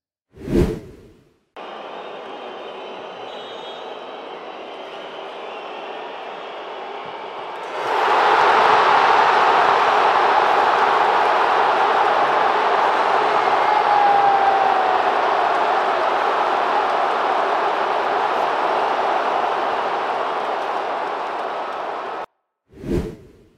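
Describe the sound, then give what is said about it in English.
A football stadium crowd reacts as Ronaldo misses a penalty in a Portugal–Slovenia match: a dense, continuous roar that surges louder partway through and holds steady before cutting off abruptly. “And you got to hear this. This is the sound of Ronaldo missing his penalty.”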